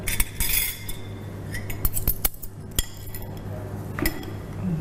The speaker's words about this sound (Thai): เอาจานเนี่ยมาวางรวมกัน ครับเดี๋ยวผมรวมเศษอาหารนะครับ ใช่ใช่รวมเศษอาหารเลย